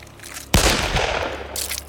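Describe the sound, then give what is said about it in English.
A single pistol gunshot as a trigger is pulled: one sudden, loud, sharp crack followed by a long, noisy decaying tail, with no other shots after it. “I cry and pull the trigger.”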